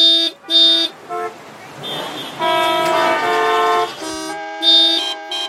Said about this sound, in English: The caterwauling horns had reached a crescendo